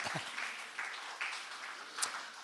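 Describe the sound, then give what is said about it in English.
Audience applause at a building handover ceremony: a steady, fairly faint wash of many hands clapping, continuous throughout with a few slightly louder swells. “Yeah, you can clap. That's worth clapping.”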